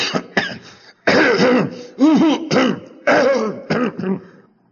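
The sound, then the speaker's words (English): A man imitates a cough with many throaty, voiced hacking bursts in an uneven rhythm, some short and some drawn out, loud and alone with no other talk. “who used to cough like that? Did you ever know anybody cough like that?”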